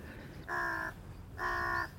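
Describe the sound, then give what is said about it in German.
Two ravens cawing: two harsh, nasal calls of about half a second each, separated by a short pause, fairly quiet against a low background hum. “Schauen Sie die beiden Raben dort.”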